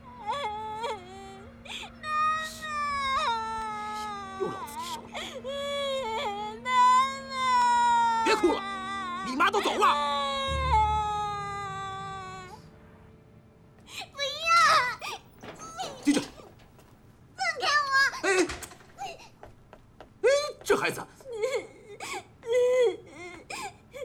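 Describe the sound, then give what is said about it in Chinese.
A child cries and wails in long, quavering sobs that rise and fall in pitch, then breaks into shorter, choppy cries and whimpers, with people talking over and between the crying. “别哭了，你妈都走了。”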